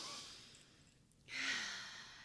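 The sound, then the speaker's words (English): A deep breath taken in a quiet grounding moment: a soft airy intake fades, then a fuller exhale swells and slowly tapers, quiet and unhurried, with no talk. “as you know, we always take a moment to ground, taking a moment to breathe”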